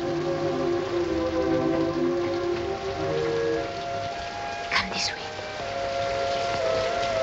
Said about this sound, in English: Oh, it's raining.